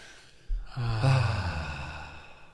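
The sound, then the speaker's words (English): A single slow, deep breath during a calm guided relaxation, rising suddenly from near silence into a long, soft, airy exhale that gradually fades. “So let's take a deep breath to clear our mind.”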